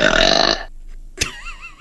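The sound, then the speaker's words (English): A human voice imitates a dog burping with one loud, harsh, buzzing belch about half a second long. A brief click and a faint trailing vocal sound follow. “She burped in my face.”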